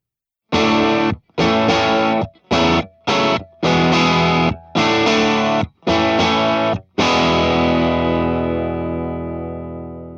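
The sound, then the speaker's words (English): Distorted electric guitar through an amp, miked with a 57 up close and a distant ribbon mic: eight loud chord bursts with short hard stops between them, the last chord left ringing and slowly decaying. “We put the 57 back up close on the amp and kept the ribbon distant. And this is what it sounded like.”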